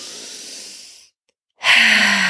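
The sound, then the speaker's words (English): A deep breath is drawn in through the nose as a soft, steady hiss for about a second; after a brief silence, a louder, rougher rush of air follows. “Everybody take a giant deep breath in through your nose”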